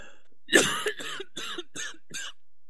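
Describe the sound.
Someone clears their throat with a sharp, cough-like burst followed by several shorter rasping hacks in an uneven rhythm, fairly loud, with no talk.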